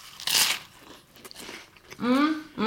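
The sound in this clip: A crunchy bite into a sandwich filled with pesto, salami, mozzarella, sun-dried tomatoes, lettuce and butter is followed by quieter chewing, then a voice starts talking.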